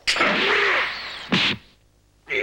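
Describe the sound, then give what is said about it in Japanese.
A punch sound effect from an animated fight: a long, loud sweeping rush, then a short, sharp hit, and another brief burst at the end. “ひょっとしてこれがパンチだったのか。”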